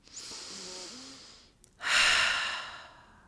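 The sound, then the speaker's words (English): One slow, deep breath drawn in through the nose and then released through the mouth, as in a guided relaxation exercise. The soft, airy inhale is followed by a louder, rushing exhale that gradually fades. “take some deep breaths in through the nose and out through”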